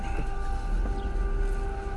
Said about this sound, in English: That's not a train. That's just somebody who likes their horn.